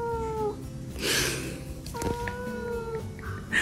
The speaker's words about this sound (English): This white cat is craving more petting, because petting is never enough.